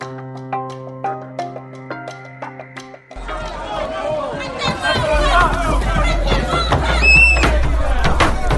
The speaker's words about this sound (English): This is the sound of the very peaceful protest that happened in St. Louis this weekend.